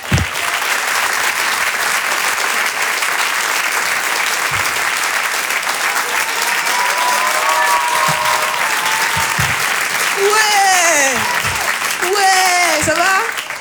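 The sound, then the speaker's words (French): Comedy-club audience applause for a comedian. Loud, sustained clapping runs for over thirteen seconds, and in the latter half voices and cheering rise above the crowd. “Vous pouvez l'applaudir très très fort, il s'appelle Rodrigue.”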